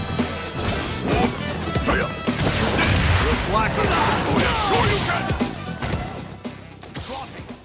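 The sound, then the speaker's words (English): Hits and impacts from a Street Fighter 6 fighting-game match: many rapid smashes, thwacks and whooshes pile up in a busy, loud stream, with voices over them. “So, yeah, Street Fighter 6, no big surprise. my most played and most favorite game of 2023. We gotta do this. Come on. This will be a good fight.”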